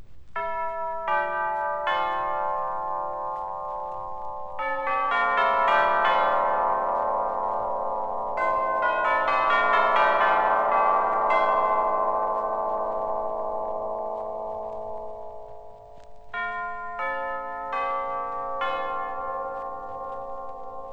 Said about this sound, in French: Le carillon tubulaire, avec ses éléments de grand format, se rapproche davantage du son des grosses cloches.